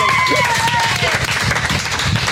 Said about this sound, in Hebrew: כל המיקרופונים רועדים ברוב מחיאות הכפיים.